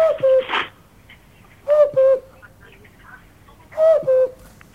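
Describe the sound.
Cuckoo calling: three evenly spaced pairs of clear two-note calls, each pair falling in pitch, with quiet gaps between them.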